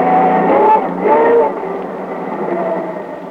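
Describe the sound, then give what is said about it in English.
A car engine with motor trouble runs roughly. The steady low hum surges briefly, then settles into a weaker, uneven drone. “Something wrong with the motor? I'll get out and see.”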